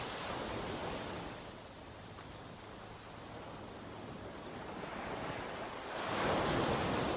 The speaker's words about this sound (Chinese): 只剩下海潮的声音，试着把自己融入海潮当中，